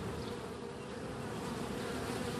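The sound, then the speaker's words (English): Honeybees buzz from two beehives on a back deck, a dense, continuous, even drone that holds steady throughout with no voices. “That's the sound of the two beehives on my back deck.”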